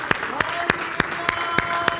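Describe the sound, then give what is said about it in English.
Congregation clapping hands in praise during a church service: seven sharp, evenly spaced claps in a steady, brisk rhythm, loud and clear against a quiet background. “Clap your hands in praise to our Savior.”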